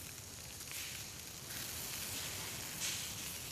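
Meat sizzling on a grill as fat drips onto the heat, a soft, continuous crackling hiss that stays faint and steady throughout.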